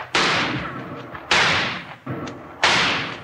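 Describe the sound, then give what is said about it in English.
Rifle shots ring out in a western shootout around a covered wagon. Four sharp, loud reports sound at uneven intervals, one noticeably weaker, each ending in a brief decaying rumble. “Hold your fire. They've stopped shooting.”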